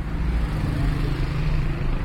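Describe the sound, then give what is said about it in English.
Traffic on a busy road in Kabul, a road choked with cars day and night, forms a steady low rumble with no distinct passing vehicles standing out. “Koofi and her daughters live in a house just off a busy road in Kabul that's choked with traffic day and night.”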